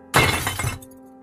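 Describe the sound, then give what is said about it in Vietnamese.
A glass flower vase, grabbed from a table, smashes against the back of a person's head: one loud, bright crash of shattering glass that bursts suddenly, holds for about half a second, then falls away to a faint tinkling tail. “Điền vớ ngay cái lọ hoa thủy tinh ở trên bàn rồi đập thẳng vào gáy của Dung.”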